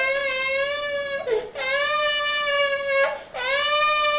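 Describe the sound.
An infant cries during a nappy change, with long, loud, high-pitched wails broken by two brief gulps for breath, each followed by a fresh rising cry.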